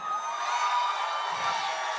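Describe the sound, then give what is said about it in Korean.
Audience applause and cheering at a crowded event held in the rain, a dense, steady wash of clapping and shouting that holds at an even, moderate loudness throughout, with no single voice standing out. “자 큰 박수 함성 다시 한번 해주세요”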